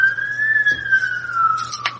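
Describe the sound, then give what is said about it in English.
An ambulance siren passes by as one steady, sustained wailing tone that rises slightly, then slowly falls in pitch as it goes, with no one talking over it. “I just let the ambulance go by.”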